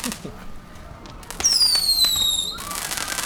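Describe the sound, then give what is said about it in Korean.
Fireworks go off with a long whistling rocket whose shrill tone falls steadily in pitch, preceded by scattered faint pops and followed by a dense crackling hiss. “어 갑자기 저 불꽃놀이에 홀렸어.”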